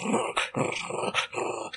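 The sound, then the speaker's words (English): A wounded she-wolf growls, afraid and hurt, in a few pulsing, rasping bursts with short breaks between them. “Yep, she is growling at you like any wild animal would”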